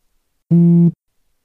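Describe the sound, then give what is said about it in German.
A new-message notification tone: a single steady, buzzy beep with rich harmonics lasting about half a second, sounding alone between silences. “Neue Nachricht.”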